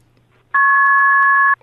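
A telephone line emits a single steady electronic tone during a call, a clean two-note beep held for about a second, loud and alone against near silence.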